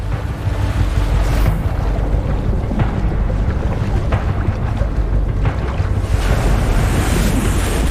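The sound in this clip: Tide waves wash in with a loud, steady, broad roar of surging water, while wind buffets throughout.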